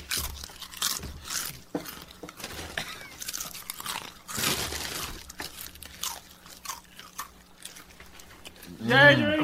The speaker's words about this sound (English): This tavern food is acceptable. Tastes good. For tonight, we're eating Blazing Buffalo Ranch, Doritos Collisions,